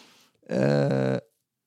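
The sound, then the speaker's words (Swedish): A single buzzy fart sound, low and rich in harmonics, lasting under a second with a slight wobble midway before it stops. “Också prutten.”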